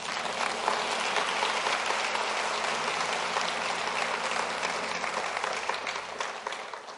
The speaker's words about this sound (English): Let's give the Lord a hand clap.